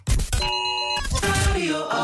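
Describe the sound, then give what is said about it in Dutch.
Emergency alarm jingle with bright, sustained electronic tones over percussive hits, loud and continuous throughout, with no voices. “Dat is natuurlijk het grote alarm, het noodalarm.”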